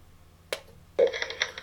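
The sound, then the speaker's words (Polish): A click as the start-stop button, second from the left, is pressed and held on a TS-4 recorder, then a sustained hissy noise with a few louder bursts. “i przytrzymuję ten przycisk start-stop, czyli drugi od lewej strony. Model TS-4.”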